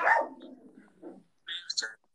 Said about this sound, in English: My dog is wanting to, like, have a stroke right now. So I might just get him outside in 1 second. So if you hear barking, that's probably just me, actually.